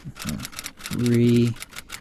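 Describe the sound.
Rapid, evenly spaced clicking of typing on a computer keyboard, the keystrokes continuing steadily while a voice speaks briefly over them in the middle.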